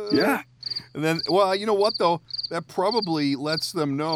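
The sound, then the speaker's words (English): Crickets chirp in a steady, high, rhythmic pulse that continues under men talking throughout. “they just hear the crickets in the background.”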